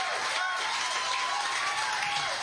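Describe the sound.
An audience cheers and applauds to welcome a performer at a blues show in St. Elmo, a faint, steady blend of clapping and whoops lasting the whole clip, with voices mixed in.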